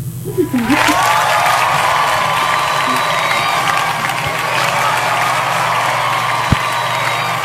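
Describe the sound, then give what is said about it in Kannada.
Applause and cheering from a crowd, a sustained dense wash of clapping and voices that rewards quiz listeners who gave the right answer. It holds steady at an even level throughout, with a few faint tonal notes mixed in. “ಸರಿಯಾದ ಉತ್ತರವನ್ನು ನೀಡಿದ ನಮ್ಮೆಲ್ಲ ಕೇಳುಗರಿಗೆ ಪ್ರೀತಿಯ ಚಪ್ಪಾಳೆ ಹಾಗೂ ಅಭಿನಂದನೆಗಳು.”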